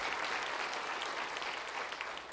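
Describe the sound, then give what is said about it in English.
Church audience applause, a dense and continuous wash of many hands clapping together, holding steady before easing slightly at the very end. “would you give the Lord a big round of applause in this place?”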